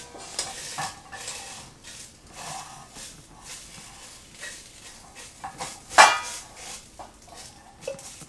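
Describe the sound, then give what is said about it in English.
Food frying in a pan gives a steady, quiet sizzle under repeated stirring, with scattered scrapes and clinks of a utensil against the pan and one sharper, louder clink partway through. “You are a little food hound. You know when there's food cooking.”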